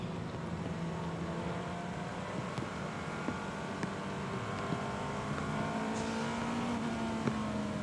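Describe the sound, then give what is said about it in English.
A Porsche race car engine revs on throttle during practice on a very wet track at Watkins Glen. It is a steady droning engine note with gently shifting pitch, a few sharp ticks and no talk. “Listening in to the throttle of the Matthew Jaminet driven Porsche Penske Motorsport.”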